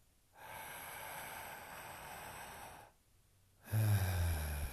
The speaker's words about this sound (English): Close down the eyes. Take a nice deep inhale into the belly.